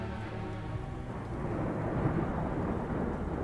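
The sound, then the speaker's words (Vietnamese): Thunder: a low, continuous, rolling rumble that swells slightly partway through and then holds steady, heard alone without voices. “Một tiếng sấm nổ vang trời, kèm theo đó là một ánh chớp giật”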